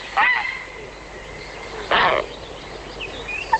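A grey heron gives two loud, harsh rasping calls about two seconds apart, followed by a few faint higher calls near the end against a quiet background.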